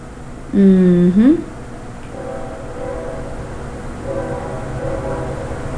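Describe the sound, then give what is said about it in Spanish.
A train passes: a loud two-part horn blast that bends in pitch, then a steady rumble of the train running on, with faint talk over it. “Ahí va el tren. Ya se va. Va llegando, parece.”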